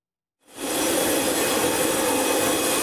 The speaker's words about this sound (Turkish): İstanbul'da Atatürk Havalimanı'ndan hem yardım malzemesi hem de arama kurtarma ekiplerini taşıyan uçak Venezuela'ya doğru havalandı.